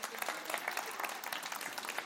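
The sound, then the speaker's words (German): Applause from an audience at an author's book presentation: dense, continuous clapping with many overlapping hand claps, faint and even in level from start to finish, with no voices on top. “Applaus!”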